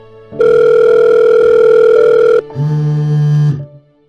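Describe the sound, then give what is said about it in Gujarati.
A telephone ringing tone played over a loudspeaker during an outgoing call: two loud, steady electronic tones in a row, a long one and then a shorter, lower-pitched one, with no talking. “Phone કરું ને અડધી રીંગે phone ઉપાડીએ, જોવું છે તમારે? જોવું છે અડધી રીંગે, loud speaker કરીને બતાવું યાર.”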